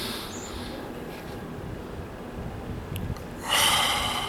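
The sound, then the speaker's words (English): A deep breath drawn in to fill the stomach, ending in a sharp, noisy inhale after a few seconds of soft breathing and low hiss. “Use that part of your hand, pull it on your stomach, and you breathe in.”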